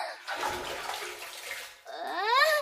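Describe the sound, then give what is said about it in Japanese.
Hot water splashing in a bath: a broad, rushing wash of sloshing water that dips briefly, then surges again more brightly and loudly before cutting off. “ちょっとお湯かかる！”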